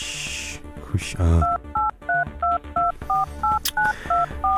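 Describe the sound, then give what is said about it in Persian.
Telephone keypad tones sound as a phone number is dialled. After some earlier clatter and noise, ten short beeps follow in a quick, even rhythm, each a steady two-tone pitch. “بذار من شماره این خلوچل بگیرم”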